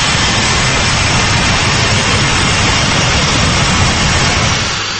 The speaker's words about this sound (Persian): این هواپیمای بوئینگ از فرودگاه دوشنبه به سمت روسیه پرواز دارد